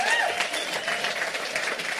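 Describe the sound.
Steady applause from an audience at the Northern Colorado Cowboy Church welcoming a speaker, dense clapping that runs evenly through the whole stretch without a break.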